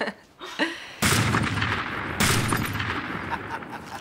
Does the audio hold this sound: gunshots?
yes